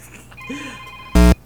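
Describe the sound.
A telephone rings once in a single short, loud burst, preceded by a faint steady tone and low murmuring.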